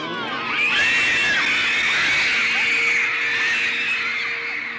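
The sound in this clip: Fans scream hysterically at a 1960s pop concert, a dense, shrill wall of many voices that holds steady and loud throughout without pause.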